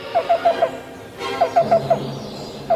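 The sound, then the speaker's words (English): Black-billed cuckoo calling: two quick series of four soft, evenly spaced hollow notes at a mid pitch, separated by a short pause, with one more note starting just at the end. “The black-billed cuckoo, our featured feathered friend, here on Talkin' Birds.”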